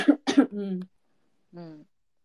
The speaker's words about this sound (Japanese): ごめん、お茶が。大丈夫、 心配やわ。 お茶変なとこ入った。